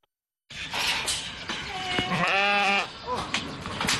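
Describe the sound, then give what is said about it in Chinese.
Sheep bleat in a village farm's pen holding a flock of well-fattened animals. A few wavering calls come over a restless background, with one long, quavering bleat standing out in the middle. “走进磴口县卜龙闹镇夹道村，村民庄明亮家的羊圈舍里羊群个个膘肥体壮”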